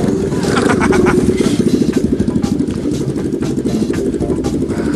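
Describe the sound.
A vehicle engine runs on its first test run: a loud, steady, rapidly pulsing rumble that continues throughout.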